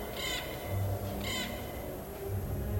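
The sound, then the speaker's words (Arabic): Two harsh, raspy caws from a crow, evenly spaced about a second apart, stand out over a constant low hum and faint background noise. “اول ما قال الكلمه دي فعلا سمعت صوت غراب، كان صوته مستفز وعمال يصرخ.”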